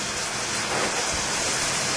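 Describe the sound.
Battered bread and shrimp sizzle in hot oil, a steady, dense hiss that holds evenly throughout with no talking.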